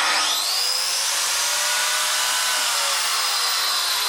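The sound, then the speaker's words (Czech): An angle grinder bites into wood as a puppet maker carves wooden puppets, the tool standing in for a chisel. A loud, steady, high-pitched whine with harsh hiss runs continuously, with no talking. “ale co to tady máme za techniku? To je rozbruska, já jsem si koupila jakýho mazlíka. Vlastně to napodobuje dláto, používá to hodně jako řezbářů.”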